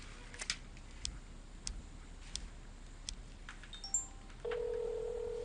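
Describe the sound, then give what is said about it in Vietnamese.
A telephone goes unanswered: a few faint, soft clicks come first, then a steady electronic ring tone starts near the end and holds at a constant pitch. “Không bắt máy có phải không? Tôi cũng đã gọi mấy lần rồi nhưng đều không nghe máy.”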